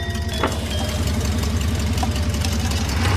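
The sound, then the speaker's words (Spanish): A car's engine runs as the car pulls away through a barrier. The low, throbbing rumble is loud and steady throughout, with no voices. “El coche de Villa Ambrosa se va.”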